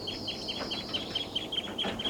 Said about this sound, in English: and they're calling a lot. Seven birds and they're taking off.